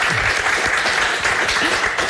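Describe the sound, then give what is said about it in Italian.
Audience applause for a guest, loud, dense and continuous clapping that keeps an even level from start to finish. “Applauso per Eva.”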